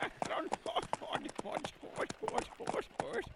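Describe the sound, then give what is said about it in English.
Horses pulling a wagon around Devil's Tower clip-clop in a quick, steady rhythm of hoofbeats, heard beneath continuous talking voices. “Oh, slow, horses, slow down. Seems I'm not in control anymore.”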